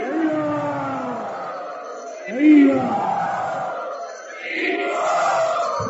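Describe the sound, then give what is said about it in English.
A crowd at a religious gathering loudly welcoming a swami, a continuous mass of raised voices calling out together, with a brief louder swell partway through. “Let us very loudly also welcome His Holiness Jai Advaita Swami Maharaj.”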